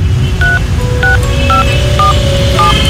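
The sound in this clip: Telephone keypad dialing tones from a call to the fire brigade: five short two-pitch beeps at an even pace over a steady low background hum.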